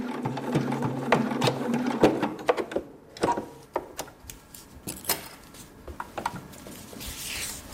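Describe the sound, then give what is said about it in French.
A sewing machine runs in a hair salon as hair is stitched into a hairpiece for a chemotherapy patient. Rapid mechanical stitching rattles in steady bursts, breaks off briefly, then resumes as sharper, more scattered clicks and whirs. “Sa machine à coudre trône en bonne place dans son salon de coiffure de Peuzeux, dans le canton de Neuchâtel.”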